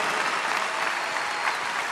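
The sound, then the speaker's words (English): Audience applause: dense, steady clapping from a crowd, sustained at an even level throughout without a break. “You guys are clapping”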